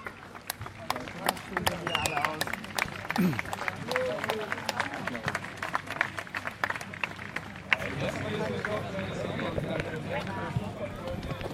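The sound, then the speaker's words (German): Scattered applause from a crowd at the Birkenmoos stadium in Rottach-Egern on the Tegernsee: many sharp, uneven claps run under continuous talking and grow denser and louder in the second half. “Es brandet Applaus auf,”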